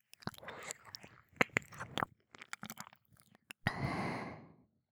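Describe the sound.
Close mouth sounds of nibbling and chewing on an ear: many wet clicks, smacks and crunchy bites in irregular bursts, followed near the end by a longer breathy rush that fades out.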